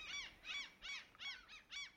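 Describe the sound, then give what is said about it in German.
A kiwi's call, six shrill arching notes repeated in an even rhythm, fairly faint against a quiet background. “Und du hörst plötzlich einen Schrei von einem Vogel. Und ganz intuitiv weißt du, das ist ein Kiwi.”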